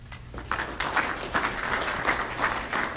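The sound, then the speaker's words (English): An audience applauds to welcome a speaker to the stage: a continuous wash of many hands clapping, dense and even, with small swells in loudness. “Please welcome Rob Palmer.”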